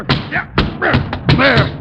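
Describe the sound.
A few dull, heavy thumps as an umbrella under a chair is struck, separate hits mixed with excited voices.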